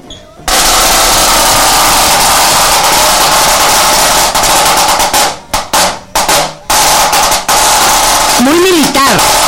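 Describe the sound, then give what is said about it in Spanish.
A high-tension Kevlar snare drum played in fast, loud rolls, a dense rattling buzz of rapid strokes with a few brief breaks partway through before the roll resumes. “Que este es un snare. Snare drum. Snare drum de alta tensión. Esto que ven aquí es Kevlar.”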